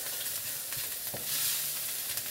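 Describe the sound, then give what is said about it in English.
Pork stir-frying in a wok gives a steady, fairly quiet sizzle with a few soft knocks from stirring, and no talk. “And I'm just gonna cook this until the pork's just done.”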